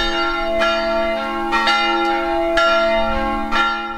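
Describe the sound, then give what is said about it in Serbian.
Church bells ring out from a church in Deszk, near Szeged, on a feast day, with repeated loud strikes roughly once a second over a sustained, humming metallic resonance. “Zvuk zvona Deščanske svetinje, dakle, dopirao je do Novog Svetog Ivana, ali čuli su ga i u Morahalomu, Deski i Kalazu.”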